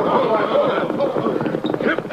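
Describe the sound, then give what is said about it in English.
Horse hooves clip-clopping as a rider reins up a lame horse in a radio western drama, rhythmic hoof beats running beneath a man's speech. “His horse has gone lame. Yeah. No, she can't get away now. He's reining up.”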